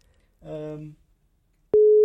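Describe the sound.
A steady telephone ringing tone as a call is placed, starting abruptly after a brief hummed voice and a pause, then holding loud and unbroken to the end.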